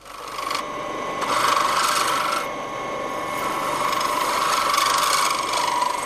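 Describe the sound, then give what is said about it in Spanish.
A hand file rasps against a ring on a knife handle, shaping its moulding in continuous, fairly loud scraping strokes that swell and brighten at intervals, with no voices. “Este rebaje le permitirá trabajar con la lima para darle forma a la moldura.”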